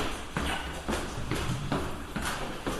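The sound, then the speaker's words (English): A person and a dog walk down a flight of stairs, their footsteps landing as soft, steady thuds at an even, unhurried pace. “So now we're walking down the stairs and she's like way ahead of me”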